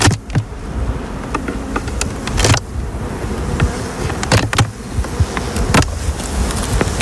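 Honeybees buzz around a beehive with a honey super on top: a dense, steady drone with a few sharp clicks and knocks scattered through it.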